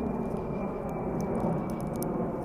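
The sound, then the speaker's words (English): Steady, broad roar of a large jet airplane banking and passing overhead, a continuous rushing rumble that holds at an even loudness from start to finish. “It's a big old jet.”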